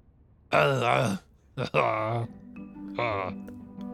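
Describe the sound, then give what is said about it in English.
A person groaning in a bathroom: three drawn-out, low moaning vocal groans, the second begun with a brief catch, with a faint steady hum between and beneath the later ones. “you hear a groan from the bathroom”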